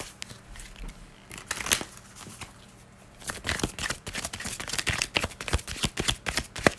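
Tarot cards being shuffled to draw a clarifier card give crisp papery riffles and slaps, sparse and softer at first, then a quick, busy run of many sharp flicks.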